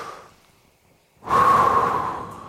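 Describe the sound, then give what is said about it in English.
A deep breath taken during church communion: a faint soft breath, a brief pause, then one long, loud, airy breath that slowly fades. “as we do the deep breath”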